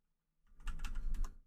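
Computer keyboard typing as a command is entered: a quick burst of many light plastic keystrokes rattling in rapid succession after a brief silence, ending abruptly.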